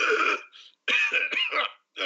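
Heavy, harsh coughing: several rough, loud bursts come in quick succession with brief gaps between them, sounding like a forceful, strained fit.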